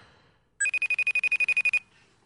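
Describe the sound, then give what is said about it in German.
Ringing of an incoming FaceTime audio call: a brief two-note electronic chime, then a fast train of about a dozen identical high, bright tone pulses lasting just over a second, loud and alone before it cuts off. “Hört man das da? He? Das ist ein sogenannter FaceTime-Audio-Call.”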